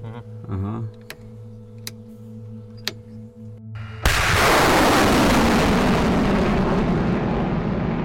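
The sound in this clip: A HIMARS rocket launcher fires during Ukrainian army training. After a quieter stretch with a few sharp clicks and a brief voice, a sudden loud, harsh roaring blast bursts out and holds steady for about four seconds.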